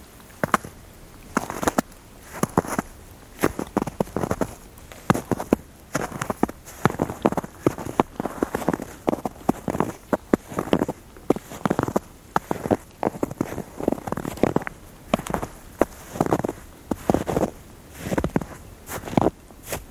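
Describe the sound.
Footsteps crunching through fresh, wet snow that fell over two days, a steady walking-pace series of many crisp crunches with no voices.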